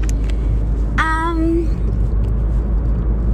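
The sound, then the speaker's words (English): A car driving to work on the road, heard as a steady low rumble that runs through the whole stretch, with a brief tonal chirp near the start. “I am driving to work again.”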